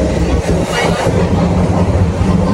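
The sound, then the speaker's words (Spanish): Rumble of subway trains at an interchange station between metro line 1 and line 2 in Toronto: a loud, steady rolling roar with rattling wheel clatter that continues without a break. “Llegué a esta estación donde está la línea 1 del metro, la línea amarilla. Y ahora aquí puedo hacer cambio a la línea 2 de color verde.”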